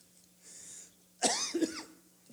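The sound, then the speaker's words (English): A person with a tickle in the throat lets out one sharp, loud cough that trails into a rough, throat-clearing rasp, alone apart from faint background hum. “Excuse me. I've got a little bit tickle in my throat this morning. So if I cough a little bit,”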